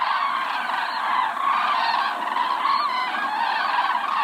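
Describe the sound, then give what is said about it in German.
A migrating flock of common cranes calling during the mid-October migration peak, with many overlapping calls forming a dense, steady chorus that continues throughout. “So hört sich ein Kranichzug an. Mitte Oktober ist der alljährliche Höhepunkt des Kranichzugs.”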